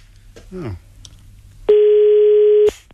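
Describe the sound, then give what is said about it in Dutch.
Telephone dial tone heard when calling again: a steady, even, mid-pitched tone lasts about a second and cuts off abruptly, preceded by a brief bit of talk. “Nog een keer bellen? Nog een keer bellen.”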